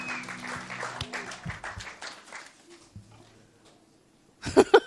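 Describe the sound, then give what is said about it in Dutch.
Audience applause for a band fades from a dense patter of clapping to near silence over about three seconds, and two sharp thumps follow at the end. “Give the band a hand.”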